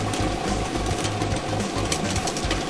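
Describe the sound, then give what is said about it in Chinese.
Lottery draw machine spinning thirty numbered balls, a loud, steady whirring and rattling with a low mechanical hum, continuous and without talk. “摇奖机已经正式启动了。通过镜头我们可以看到30个号码球在摇奖机当中正在快速的旋转着”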